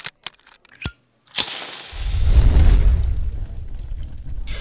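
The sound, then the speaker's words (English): Green fire bursts along a sword blade and creeps up it: a few sharp clicks and a brief burst, then a loud whooshing roar with deep rumble that swells and keeps burning steadily. “Your sword is on fire, and it's green! Are you all right? Yes, the fire is moving up the blade.”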